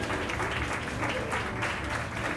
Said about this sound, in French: je vous demande un tonnerre d'applaudissements, s'il vous plaît, pour l'équipage.